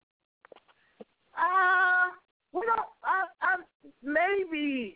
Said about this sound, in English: Hey, baby boy. Go ahead. Talk about it. This kitty again.